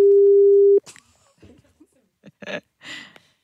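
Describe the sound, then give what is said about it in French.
A telephone line tone sounds as an outgoing call is placed to a home in Liège province: one steady, loud tone lasting under a second, then breaks off into soft voices and laughter. “Et donc, on appelle du côté de Bénezet, en province de Liège.”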